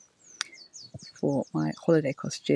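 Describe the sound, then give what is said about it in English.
Birds tweeting in the background give repeated high, thin chirps throughout, while a woman talks over them. “And by the way, could you hear the birds tweeting in the background? I think she lives in an aviary.”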